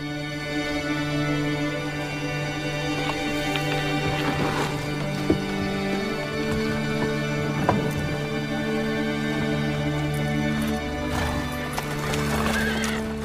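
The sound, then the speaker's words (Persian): Hooves clip-clop steadily and continuously as a four-horse carriage sets off, with a horse whinnying amid the rhythmic hoofbeats. “کالسکه 4 اسبه حرکت می کند.”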